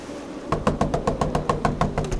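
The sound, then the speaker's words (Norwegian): A boy knocks hard on the door of a house, delivering a quick, even run of many sharp, loud raps with no voices. “Gutten banker alt han orker på døren til Malenas hus.”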